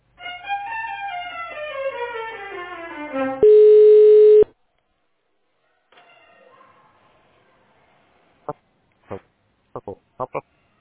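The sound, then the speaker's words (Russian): Telephone tones sound while a call is transferred to an operator. A run of stepped melodic tones leads into a loud steady single tone lasting about a second, then faint sound and several short sharp clicks. “Перевожу звонок на оператора. Так. Пожалуйста, оставайтесь на линии.”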